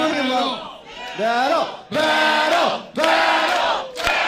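Comedy club crowd at a roast battle chants together, about four loud shouted bursts in a steady rhythm, each a sustained unison cry with short pauses between them.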